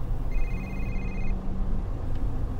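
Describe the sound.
A telephone rings and goes unanswered: a single burst of steady, high electronic ringing tone over a low background hum, then the line falls quiet again.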